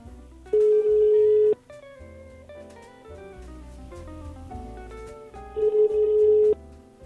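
Ringback tone of an outgoing phone call that goes unanswered: two long, steady electronic tones separated by several seconds, with background music playing between and beneath them.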